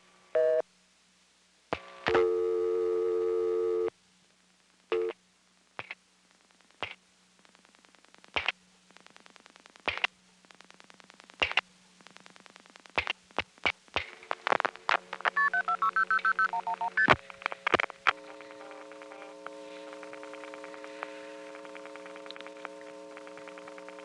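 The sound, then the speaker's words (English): An NX1 telephone exchange pulses out the dialed digits as a sequence of short tone bursts and longer steady tones, with a faint low hum running underneath. “You'll hear the other NX1 pulsing out all the digits, and then I'll flash. again once I'm, after it's finished putting the call through.”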